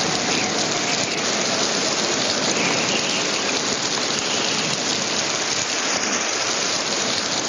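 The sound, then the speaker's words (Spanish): Rain pours down on a camp of tents, a steady, dense hiss of falling water that stays even and loud throughout, with no voices. “Otro día está en la tienda de campaña con Run refugiándose de la lluvia. Frenchy sale de su tienda y camina desesperado bajo el agua.”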